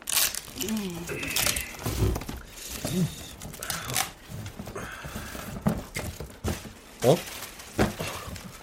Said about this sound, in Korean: 할머니, 이거 제가 뜯어볼게요.